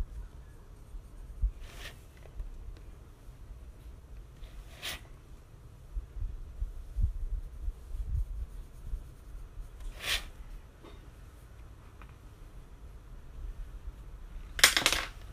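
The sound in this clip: Faint scratchy strokes while eyes are being drawn: a few short, brittle scrapes separated by long, near-silent pauses, with one louder burst of strokes near the end.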